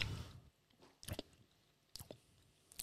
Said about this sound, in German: Guten Hunger. Jetzt esse ich so schön, gell?